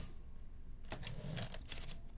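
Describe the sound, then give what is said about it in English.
Faint mechanical typewriter typing: a quick run of sharp clacking keystrokes after a near-silent opening second, with no talking. “she prefers to write with a typewriter. It makes her feel more connected with her poetry.”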